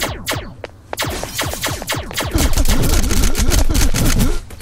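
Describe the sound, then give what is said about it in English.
Gunfire in a video game: many sharp, rapid shots crackle in quick succession, growing denser and louder through the second half into a sustained volley. “someone is trying to shoot at me, and they just shot the item.”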